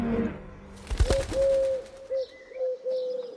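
Wild pigeons cooing: a few low, drawn-out steady coos separated by short pauses, over a quiet background.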